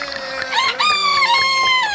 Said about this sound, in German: Ist es normal, dass Hähne um Mitternacht krähen?